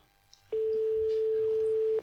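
A steady ringback tone on an outgoing phone call to Spain: one quiet, even pitched beep lasting about a second and a half, alone after brief near-silence.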